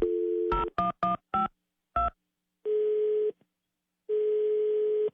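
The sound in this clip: Telephone dialing tones for an international call placed from the United States: a steady line tone, then several quick keypad beeps, followed by two long, even ringing tones separated by a silent gap.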